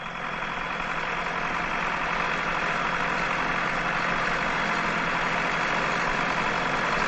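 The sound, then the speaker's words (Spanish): A tractor engine ploughing a field makes a steady, continuous rumbling drone that holds an even level from start to finish, with no voices. “Observa a Tomás en el tractor arando el campo”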